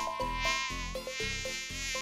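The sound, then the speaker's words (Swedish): A mosquito buzzes in a thin, high-pitched, continuous whine that wavers slightly in pitch, fairly faint and with no talking. “Bara en mygga var modig nog att försöka slå Skräck följe.”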